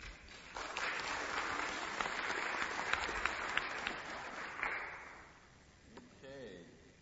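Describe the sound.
An audience applauds to welcome a doctor taking the stage for a talk. Thick, sustained clapping with a few sharper individual claps runs for several seconds, then dies down, and a man's voice begins speaking.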